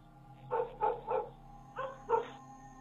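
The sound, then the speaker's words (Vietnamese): Dogs bark in a village: five clear, moderately loud barks in two groups, three then two, with no voices. “Vừa lúc tiếng chó cắn ma ở trong thôn vang lên.”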